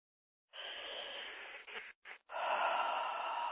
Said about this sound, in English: Everyone take a deep breath in.